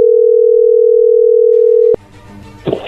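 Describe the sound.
A telephone dial tone hums at one steady pitch for about two seconds before a click cuts it off, leaving faint line noise as a call is placed.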